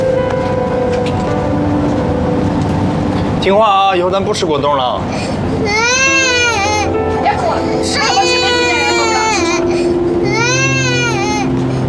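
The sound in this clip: A small child cries in repeated high, wavering wails, several bouts rising and falling while adults talk over the sobbing.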